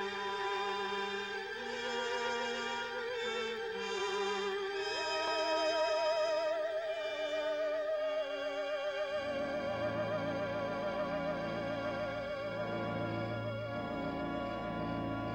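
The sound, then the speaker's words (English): Horror film opening-credits soundtrack music with sustained, wavering tones and a layered melody, steady and fairly loud throughout; about halfway through, a deeper bass line enters beneath it. “So I put the DVD in, it starts playing, the credits start rolling, and this soundtrack comes on, and I'm already in love with this movie, because it sounds like this.”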